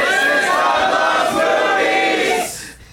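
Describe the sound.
An audience at the Upright Citizens Brigade Theater in Los Angeles cheers and shouts yay, a loud sustained burst of voices that fades out near the end.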